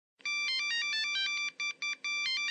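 Telephone ringing with a faint electronic melodic ringtone: a quick, steady run of bright, high repeating notes that breaks briefly twice near the end, with no talk.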